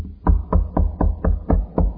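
Knocking on a door: about seven quick, evenly spaced knocks with heavy low thuds, played alone with nothing else over them.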